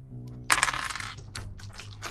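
Dice clatter onto a hard surface during a tabletop role-playing game. A sharp burst of small rattling impacts tapers into a few lighter ticks, fairly faint and with no talk.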